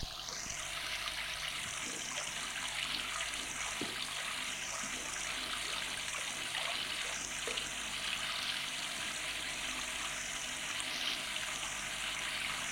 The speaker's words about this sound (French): Qu'est-ce que vous avez dit? Je n'entendais plus avec le bruit de l'eau.